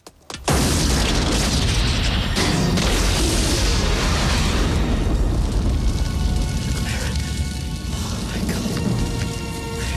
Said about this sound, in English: in time to see the car explode dramatically